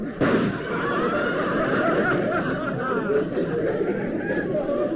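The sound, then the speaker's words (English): A gunshot fired from the audience cracks out near the start, followed by continuous crowd murmuring, chatter and chuckling. “why'd you take a shot at me? That shot came from the audience.”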